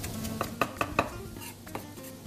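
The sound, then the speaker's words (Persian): A utensil scrapes and clinks against a cooking pan as onions are stirred in with shrimp. A few quick metallic taps are followed by softer scraping over a faint sizzle. “همین موقعی که هم پیازه بهش اضافه میکنم، یه خورده دیگه بهش میزنم.”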